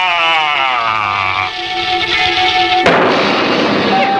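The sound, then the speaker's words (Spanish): Dynamite blows up a tree in a video game. Steady tonal game music plays first, then a sudden loud explosion bursts out near the end and leaves a rumbling noise that carries on to the close. “Así que explotaré el árbol con dinamita. ¡Ahí va!”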